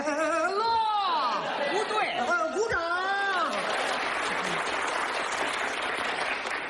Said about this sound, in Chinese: 停，我们领导说了，这里是长时间鼓掌。